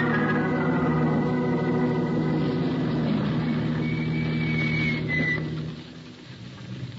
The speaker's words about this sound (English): You stay behind the wheel, Brooksy, and keep the motor running.